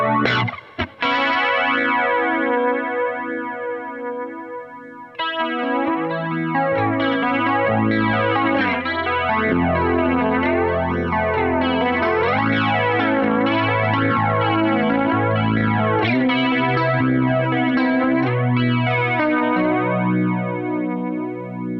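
An electric guitar runs through a flanger pedal, giving a slow, sweeping, metallic whoosh over distorted, sustained chords and notes. The sound is loud and continuous throughout after a short opening chord, and no one speaks.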